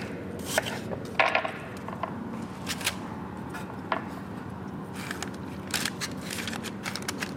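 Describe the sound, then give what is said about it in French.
Hardened caramel for a thin apple tart being broken, producing sharp crisp cracks and crunching snaps, a few louder breaks among many smaller crackles, irregular and without talk. “Donc là, je casse mon caramel. On arrive à casser ça.”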